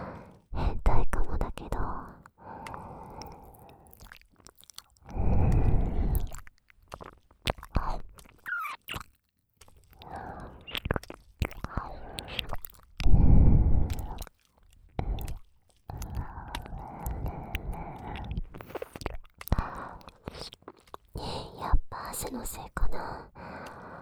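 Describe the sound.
Wet ASMR licking at an ear damp with sweat, made of soft smacking, slurping and squishing bursts that come and go, mixed with close whispering.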